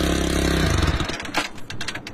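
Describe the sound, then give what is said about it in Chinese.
A motorcycle engine runs during a stunt ride on a thin steel high wire at an aerial performance show. It starts as a loud, steady buzzing drone, then turns into rougher clattering bursts. “对于高空表演者来说，他们可以在上面翻滚，在上面骑摩托车，只是在一根非常细的这样一个铁线当中。”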